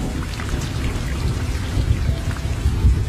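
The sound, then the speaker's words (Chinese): Cold rain drizzles steadily on a deserted road on a rainy night, a continuous hiss and patter with a few deeper rumbling swells mixed in, no voices. “冰冷的雨滴淅淅沥沥”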